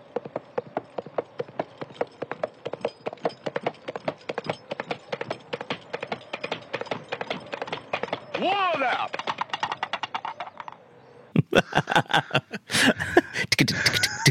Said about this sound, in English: I did not, with my own two eyes, see the horse, and so it very well could have been somebody with a pair of coconut shells.